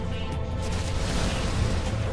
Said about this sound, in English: Flamethrower ready, sir. Flamethrower, good to go. Firing!